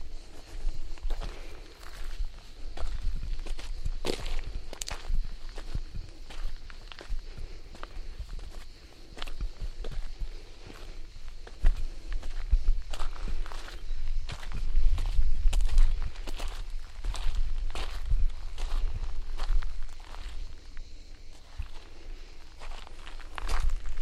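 Footsteps of someone walking along an outdoor path in the sun, a steady, regular stride of many steps continuing throughout, with no talking.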